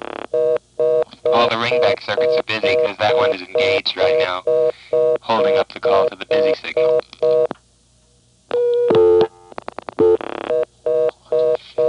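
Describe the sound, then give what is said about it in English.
Telephone dialing of two more digits followed by a reorder tone, heard as a long run of short, evenly spaced electronic tone bursts in a steady on-off pattern with a brief pause near the end. “Now, if I dial 2 more digits, the first one will be pulse repeated, which will do nothing. The second one will be stored, and it'll put on a reorder. So I'll dial 2 more digits now.”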